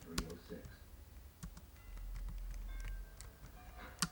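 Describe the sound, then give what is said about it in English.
Keys click faintly on a computer keyboard as someone types in a few sparse, quiet taps over a low background hum. “Alright, let's type in Star Wars.”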